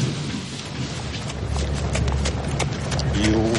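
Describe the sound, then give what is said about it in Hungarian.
Horse hooves trotting: a quick, even clip-clop rhythm of many hoofbeats over a constant rough background noise. “Címszó: ügetés. Négylábú állatok sajátos mozgásneme.”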